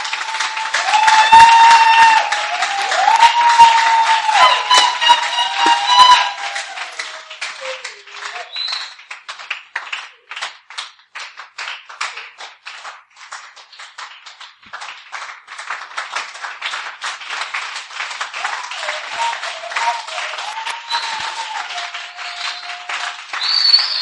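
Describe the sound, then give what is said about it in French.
Congregation applauding during a church service: a voice and tonal sound at first, then dense, steady clapping from many hands that continues to the end, with occasional voices mixed in. “Acclamez pour le Seigneur.”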